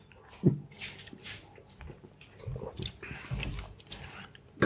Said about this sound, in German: Hier nochmal einen Schluck.